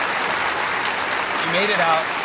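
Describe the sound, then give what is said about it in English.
Audience applause at an interview event, a steady, dense wash of clapping throughout, with a voice briefly speaking over it toward the end. “Sure, you could give them an applause.”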